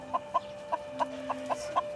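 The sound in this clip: A chicken limping from a suspected broken leg clucks in a quick run of short, soft, evenly spaced clucks over a faint background hum, with no talk.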